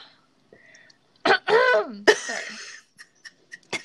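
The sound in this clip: Harsh, raspy throat clearing from mucus in the throat: a loud gravelly burst with a strained, voiced rasp, then a second rough push, followed by a few faint short sounds.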